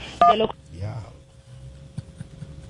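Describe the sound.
Telephone keypad dialing tones from a call to a hardware store: a brief burst of overlapping electronic beeps at the start, then people talking over a low background.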